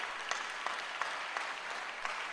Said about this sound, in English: Oh, are you clapping for Jesus?